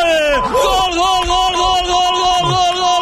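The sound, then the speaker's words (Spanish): Loud crowd chanting and cheering from travelling Villarreal fans in the south curve at El Sardinero stadium: sustained, tonal massed voices holding steady throughout. “lo celebran los aficionados del Villarreal desplazados, hay alguno que otro en el Sardinero, ¿eh? Unos cuantos en la curva sur”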